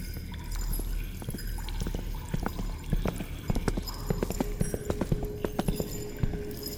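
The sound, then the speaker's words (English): Footsteps approach outside a room where captives are held: many sharp, irregular steps over a low steady rumble, growing louder toward the end. “Before Vorin could issue an equally sharp retort, he heard steps nearing the outside of the room they were pent in.”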